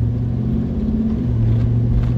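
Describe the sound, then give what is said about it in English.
A car drives down a street with a steady, loud, low engine rumble that holds evenly throughout, with no voices. “Right now I'm driving down the street.”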